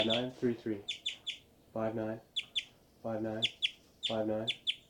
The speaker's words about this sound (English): birds are flying around giving a lot of flight calls, and these are the birds